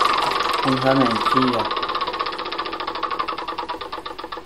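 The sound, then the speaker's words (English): Ratcheting clicks of a prize wheel being spun in a video board game, a rapid, even run of ticks that starts under a brief voice and keeps going alone to the end. “Spin the wheel, collect 10,000 times the number spun.”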